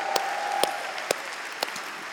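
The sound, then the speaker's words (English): Applause from a live audience at a London show, a soft, steady wash of clapping with a few sharper individual claps standing out over it. “Have an applause for Luke, please.”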